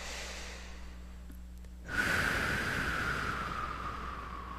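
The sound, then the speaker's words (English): A deep breath taken during a spiritual talk: a breathy rush of air starts abruptly partway through and holds steady, fading only slightly, with no voices. “Nice deep breath.”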